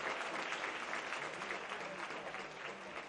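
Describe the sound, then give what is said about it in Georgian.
Applause from a very large audience at a film screening with live musical accompaniment, a dense, steady wash of clapping that stays fairly even and soft throughout. “დარბაზმა ესერთგვარი კინოკონცერტი ოვაციით მიიღო.”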